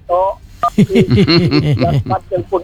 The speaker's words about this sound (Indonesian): Saya nelpon enggak diangkat.